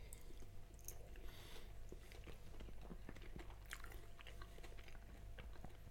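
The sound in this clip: Chewing and biting into salted potato: soft, moist, slightly crunchy mouth sounds repeat irregularly over a steady low hum, with no talking.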